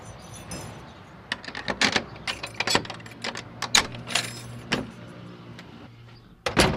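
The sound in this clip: The front door of an old family house is unlocked and opened: keys jangle amid a series of sharp metallic clicks and clunks from the lock over a low steady hum, ending in a louder final clunk.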